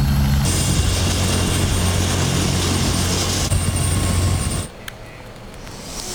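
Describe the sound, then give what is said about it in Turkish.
An ambulance helicopter in flight gives a steady, loud roar of rotor and engine that fills the whole stretch. Near the end the noise drops suddenly to a lower, quieter rumble. “yaklaşık 1,5 kilometre boyunca sedye ile taşınan Aziz Karaca ambulans helikopterle Erzurum'a sevk ediliyor.”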